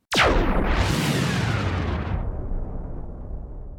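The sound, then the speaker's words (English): A giant spaceship fires its weapons at a space station in one massive blast. The sound hits hard all at once, then rolls into a long, roaring rumble that slowly fades over several seconds. “the giant ship the Raptor suddenly appears and begins to fire at the Jolly Roger and the space station.”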